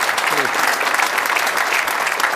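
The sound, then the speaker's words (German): Audience applause: a brief burst of dense, even clapping lasting about two seconds, with a voice briefly audible beneath it. “ja, gerne der Applaus”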